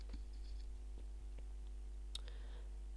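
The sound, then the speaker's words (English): Faint computer keyboard clicks as a Control-Shift-V shortcut is typed and Enter is pressed: a few quiet, sharp taps spaced irregularly. “Do copy share link. Login. Control Shift V. Enter.”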